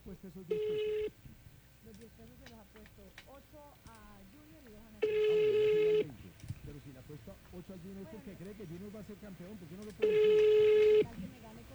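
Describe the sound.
Ringback tone of a phone call that rings and is then rejected: three steady one-second tones spaced about five seconds apart, with busy mixed sounds in between.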